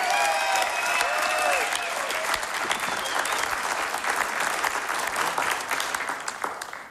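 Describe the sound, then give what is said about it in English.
An audience applauds a musician at a Mountain Stage live show, with a few whistles early on. The clapping holds as a dense, steady roar and then slowly tapers off at the end. “Give it up one more time for Calvin Arsenia.”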